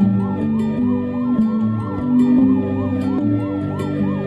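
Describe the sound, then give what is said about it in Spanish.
Ambulance sirens at night repeat a quick rising-and-falling wail in a steady, even rhythm, loud throughout, over a low sustained tonal background. “El canto de las sirenas, del autocross de ambulancias hacia la noche.”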